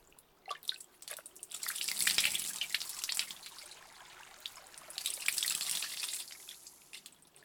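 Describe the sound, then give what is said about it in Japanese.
Water runs from a tap for rinsing while someone is being washed, a hissing splashing stream that swells and eases twice, with scattered drips. “今度はちゃんと流しとくね。”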